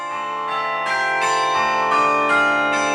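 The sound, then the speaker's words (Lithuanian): Carillon bells ring out over a city in several overlapping strikes, each adding to a rich, sustained, shimmering resonance that carries steadily throughout with no voices. “Miestą apkabinantis varpų gaudesys ir tarp dūžių įsiterpinti kūnų jaučiama tyla. Kai skamba kariljonas, sunku likti abejingu, net jei tiesiog skubi savo reikalais.”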